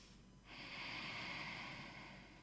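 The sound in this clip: One slow, calming breath demonstrated by a speaker: a faint, smooth airy swell that rises, holds steady and slowly fades.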